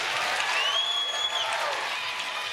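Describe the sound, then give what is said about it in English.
Audience applause welcoming guests onto the stage at a live conversation event, a dense, even roar of many clapping hands that holds steady throughout with no pauses. “So, keep it going for Jane.”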